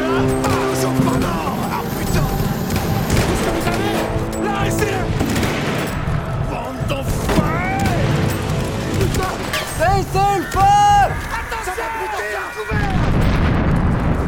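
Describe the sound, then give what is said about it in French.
Cannon or gun fire, heavy booms and blasts mixed with loud shouting voices, dense and sustained, with a brief lull near the end before the din resumes. “Continuez à tirer!”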